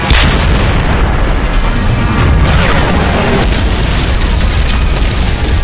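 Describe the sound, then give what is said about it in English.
A grenade blast in combat against an armored vehicle rings out as a loud, dense, continuous roar of booming explosion noise that stays at full strength throughout. “Covered with the fumes, the LAV paused in confusion. Jack threw another grenade.”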